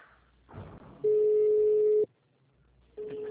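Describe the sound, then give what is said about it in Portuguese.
Telephone tones sound on a line while a call to a bank is redialed after it dropped. Some rustling noise comes first, then a steady single-pitch tone holds for about a second, stops, and starts again after a short gap. “É que é caída a ligação. Eu estou ligando de novo.”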